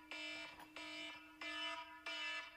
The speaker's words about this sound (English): sorry about that. It's my alarm.